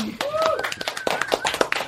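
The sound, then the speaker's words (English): Thin, scattered clapping from a small studio audience, a few separate claps rather than a full round, mixed in with people talking over it. “Sorry, we can applaud. Come on, we can do better than that, people.”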